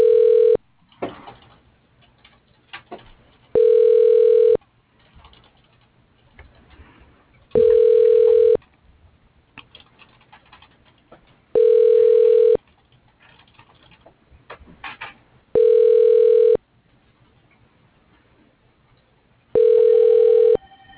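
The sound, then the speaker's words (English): Steady telephone ringback tones during a call transfer to a voicemail box, heard as six evenly spaced ring bursts about every four seconds, the first cut short, with faint line noise between them. “You are being transferred to Al Wheeler.”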